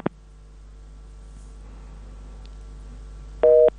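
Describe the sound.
A dropped phone call leaves a faint line hum after an opening click, then a single short, steady telephone tone sounds loudly near the end.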